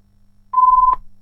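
A telephone ringing in during a bingo game, heard as one short, steady, mid-pitched electronic tone that lasts under half a second and stands alone against quiet.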